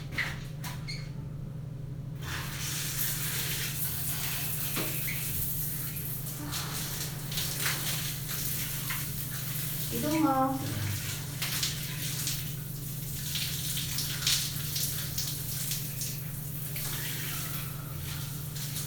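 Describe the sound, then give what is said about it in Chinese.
Shower water running to rinse someone off, a steady hiss that continues throughout over a low hum, fairly quiet and with no talk. “好，来冲水了啊，站好了。”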